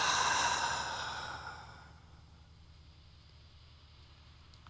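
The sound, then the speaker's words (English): A deep breath during a guided breathing exercise comes as a soft, airy rush of exhaled air that fades gradually over about two seconds into near silence. “And take a deep, full breath in and a deep breath out.”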